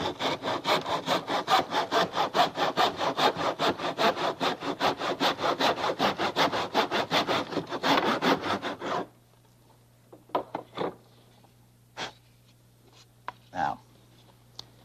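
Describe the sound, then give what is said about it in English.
A hand saw cuts through wood in many rapid, even back-and-forth rasping strokes. It stops abruptly, and a few sparse knocks and handling sounds follow in near quiet. “away from the saw. Good. Just till we get her started. Now we're lined up.”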